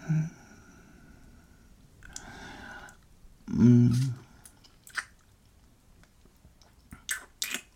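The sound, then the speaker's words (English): Biting and chewing a sweet, juicy fruit: a few soft, moist crunching bursts with one louder, fuller bite in the middle, followed by quieter clicks and squishes between near-silent pauses. “I love your sweet fruit, you know that. This one looks delicious. Can I taste it?”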